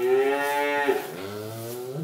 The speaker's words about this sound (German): Ja, es sind aber diese guten Kühe.